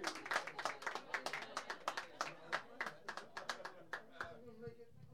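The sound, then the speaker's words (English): An audience applauds to welcome performers on stage: many sharp, rapid claps in a steady patter that thins out and fades toward the end. “Give them a big hand.”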